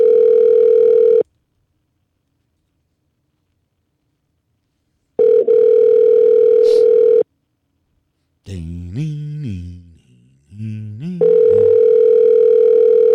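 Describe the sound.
Ringback tone of an outgoing telephone call: three long, steady buzzing tones separated by silent gaps, with a brief voice heard between the last two.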